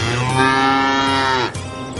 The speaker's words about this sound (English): Since time immemorial, a veterinarian could give you a diagnosis for your sick cow.